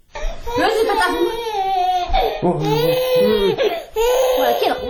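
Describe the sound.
A little girl cries while being comforted, in a large family's home: high, strained wails and sobbing bursts come in a few long waves with brief catches of breath between them.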